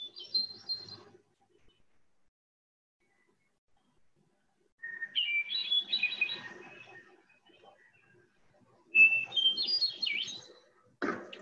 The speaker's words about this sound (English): we'll hear this voice of the hermit thrush on these lovely spring days that we're enjoying.